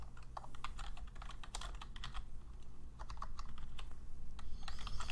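Computer keyboard keys clack quietly as someone types notes, many quick keystrokes in an uneven, continuous run with brief pauses and no talking.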